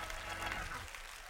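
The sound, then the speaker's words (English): A church audience applauding and making noise in the room in answer to a call to show belief in healing: a brief, dense, steady wash of clapping and crowd sound. “If you believe he's a healer, make a little noise in the room right now.”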